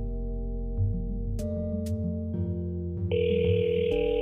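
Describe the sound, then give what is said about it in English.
A phone call being dialed: steady electronic tones shift in steps, with a couple of sharp clicks, and a higher tone enters near the end. The sound runs fairly loud and even throughout. “Let's see if we've engaged the call here. I believe it's dialing”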